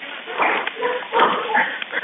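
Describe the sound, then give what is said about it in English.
Dogs bark during an emergency call, heard through a narrow, muffled telephone line as a few irregular, fairly loud barks and yelps. “I want to point out the dogs. You can hear the dogs barking.”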